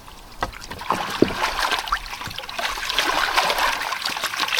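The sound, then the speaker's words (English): Oars splash and churn water while someone rows in a turtle pond: repeated wet slaps and dribbling trickles in a continuous, uneven rhythm that grows slightly busier toward the end. “Gosh, I'm not going very far. This turtle pond is probably not the right place to row.”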